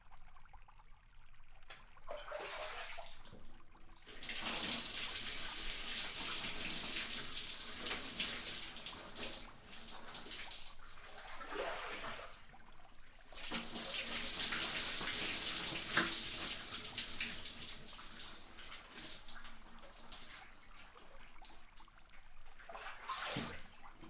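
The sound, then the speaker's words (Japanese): Water poured from a basin or tap to rinse a person's back during a bath, heard as several faint splashing, trickling pours separated by short quieter gaps. “これでお背中流し終わりました。”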